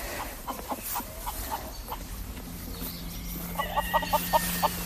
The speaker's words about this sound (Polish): Tu jest kurniczek nasz. Proszę bardzo. Około 100 kurek.